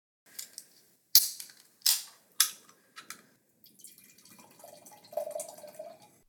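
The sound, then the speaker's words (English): Wine poured from a can into a glass: a few sharp, snappy clicks come first, followed by a steady liquid pour with a gurgling, ringing tone that grows a little louder toward the end. “So I'm going to pour this into a glass because I want to get the most out of the wine.”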